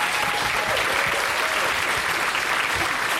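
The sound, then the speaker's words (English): Audience applause fills the whole stretch as a dense, even wash of many hands clapping at once. It stays loud and steady throughout, with no clear cheering on top. “Congratulations, everybody. Let's give yourselves a round of applause”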